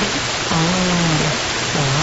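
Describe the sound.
Rushing water from a mountain waterfall: a dense, loud, steady roar that fills the whole clip without any break, with a faint wavering low tone running under it.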